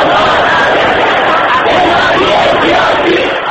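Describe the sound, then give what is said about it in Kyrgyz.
A large crowd of opposition supporters in Tehran, gathered near Tehran University, chanting a candidate's name and shouting demands: a loud, continuous roar of many voices with overlapping yells and no pause. “Мирхусейн Мусаевинин колдоочулары анын атын чакырып туруп алышты. Генералдар түрмөдөгүлөрдү бошоткула деп кыйкырдашты.”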